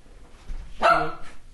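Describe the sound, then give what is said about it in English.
A dog barks once, set off by someone coming in the door: a loud, short, tonal bark with a slight whine, preceded by softer low shuffling sounds. “Whenever someone else comes in, the dog goes crazy.”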